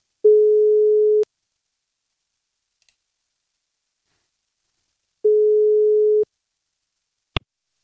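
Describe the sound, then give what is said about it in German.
Telephone ringing tone on an outgoing call: two long, steady mid-pitched tones about four seconds apart, followed by a single sharp click. “wir rufen sie jetzt einmal an und fragen einfach mal, ja, wie denn überhaupt die Lage ist. So, wählen wir mal.”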